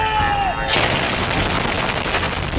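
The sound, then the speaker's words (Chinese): Heavy anti-aircraft gunfire and portable surface-to-air missile fire at night during a high-plateau military exercise, a dense, continuous roar of rapid shots and blasts filling the whole stretch. “暗夜之中，便携式地空导弹高炮火力再次全开，在夜空之密立体拦截火力屏障，成功拦截来袭目标。”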